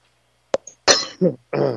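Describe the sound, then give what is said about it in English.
A short cluster of coughs and throat-clearing from a person with allergies: a few abrupt, rough bursts in quick succession, the last one voiced and drawn out. “excuse the cough, my allergies are killing me”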